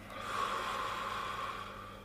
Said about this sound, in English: we can take a deep breath together. Just follow my hand, yeah. Inhale. Exhale.